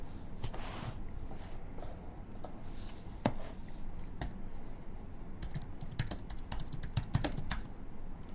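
Typing on a computer keyboard while writing a list produces faint, irregular clicks of many keystrokes, with no voices.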